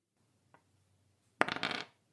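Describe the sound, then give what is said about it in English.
A single die rolled during a tabletop role-playing game: one faint tap, then a short burst of rattling clicks as it tumbles and settles, with no talking. “So I'm rolling one prowess dice.”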